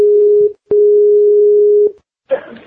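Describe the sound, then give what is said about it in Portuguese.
A steady single-pitched telephone ring tone sounds while a listener is being phoned, in two bursts, a short one and then a longer one, followed after a pause by a brief noisy burst. “vamos, vamos ligar pra um ouvinte nosso aí? Vambora.”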